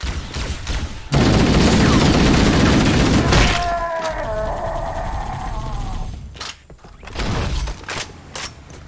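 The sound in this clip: Gunfire in a shooter video game: a loud, dense burst of rapid automatic fire lasting a couple of seconds, followed by quieter mechanical clanks and creaks, then a second shorter volley of shots.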